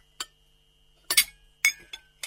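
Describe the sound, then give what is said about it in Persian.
A lid is set onto a pot of ash soup cooking over very gentle heat, giving a few sharp, bright clinks in quick succession with near silence between them. “خوب هم میزنیم، سر دیگه میپوشنیم و حرارت کاملا ملایم میکنیم تا آش ما آهسته آهسته پخته شوه و جا بفته.”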